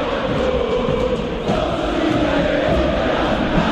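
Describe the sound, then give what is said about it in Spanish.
River Plate football fans chant in the stadium, a dense, unbroken roar of massed voices that stays loud and steady throughout. “Hace rato que cada uno de los cánticos del público de River tiene que ver justamente con la figura del presidente de la AFA y no lo consideran muy bien”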